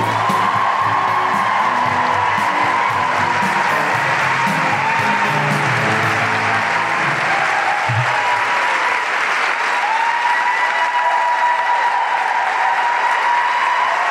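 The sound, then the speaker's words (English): Applause and cheering from the audience at a Melbourne Guilty Feminist live show as a performer is welcomed, a loud, sustained wash of clapping with scattered whoops and shouts running unbroken throughout. “So put your hands together and make incredible Melbourne guilty feminist welcoming riotous orgiastic noises for the incredible Amalie Otaloo.”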